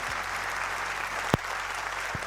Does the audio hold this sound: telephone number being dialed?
no